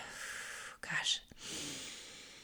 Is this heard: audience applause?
no

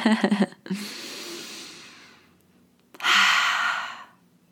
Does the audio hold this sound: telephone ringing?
no

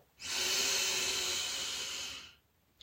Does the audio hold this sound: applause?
no

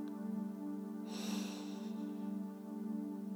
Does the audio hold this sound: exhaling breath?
yes

